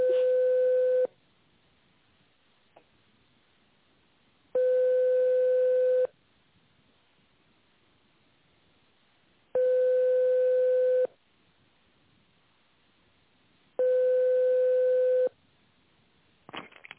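Ringback tone of an unanswered telephone call: four long, steady mid-pitched beeps, each about one and a half seconds, separated by quiet gaps of about three seconds, with a brief burst of other sound at the very end.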